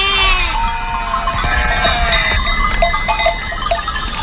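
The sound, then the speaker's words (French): A lamb bleats at night while a sheep bell tinkles. A few wavering bleats rise over continual bright clinking and ringing from the bell, with a low ambient rumble underneath. “La nuit, calme et belle, résonne par moments du tintement d'une sonnaille ou du bêlement d'un agneau, inquiet de savoir si sa mère est toujours là.”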